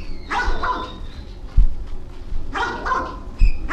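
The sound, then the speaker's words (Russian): A common crow imitates a dog's bark, giving two short bark-like bursts, each made of a couple of quick yelps and separated by a pause, with a few low thumps in the background and no talk. “Ну вот это сейчас лаяло. Это не собака лаяла, это лаяла обыкновенная ворона.”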